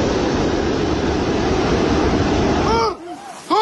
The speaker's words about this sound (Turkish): Mazgalların tıkanması sonucu su baskınları yaşandı.